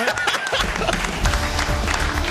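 Crowd applause and cheering mark the end of a football match between Qatar and Switzerland, a dense, steady wash of clapping and crowd noise throughout.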